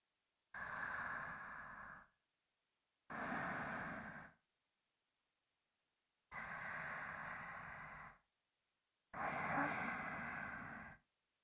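Slow, deep breathing: four long, even breaths with quiet pauses between them. Each is a soft, airy rush that holds steady, then fades, in an unhurried rhythm with no talking.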